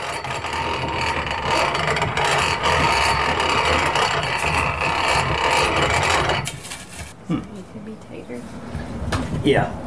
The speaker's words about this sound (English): You hear that mill turning freely metal on metal? That means the pods aren't getting fed through to the grindstone.